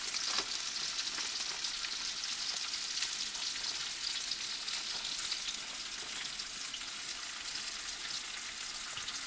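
Bacon sizzles in a pan with a dense, unbroken crackling hiss that runs evenly for about nine seconds, fairly faint and with no voices.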